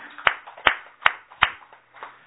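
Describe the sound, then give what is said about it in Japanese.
Five slow, evenly spaced handclaps mark a celebration of a boy's fifteenth birthday. Each clap is sharp and distinct, and the last one is fainter. “浩二君が満15歳を迎えましたので盛大な拍手でお祝いをしています”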